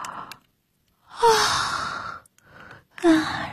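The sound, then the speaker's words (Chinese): A drowsy person yawns before sleep: a long, breathy exhale carrying a faint voiced tone, followed by shorter soft breaths, with no talking. “困劲儿冲头，钟爱打了个哈欠”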